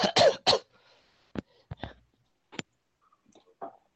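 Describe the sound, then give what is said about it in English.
A player coughs on purpose during a tabletop game session: three loud harsh coughs in quick succession, then sparse faint clicks and breathy sounds. “Do I continue coughing, or is it just like one little?”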